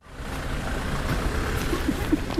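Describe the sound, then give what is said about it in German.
Steady road rumble from a car driving to the outskirts of Sloviansk, Ukraine. A continuous low, broad noise runs throughout, with a few faint knocks near the end. “Mit dem Auto geht es an den Stadtrand von Sloviansk.”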